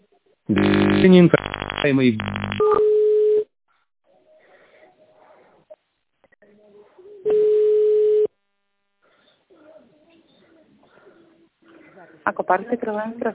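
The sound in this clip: Telephone keypad tones dialing a three-digit extension: a quick burst of touch-tone beeps is followed by longer steady beeps, with faint muffled voices in the gaps and more tones near the end.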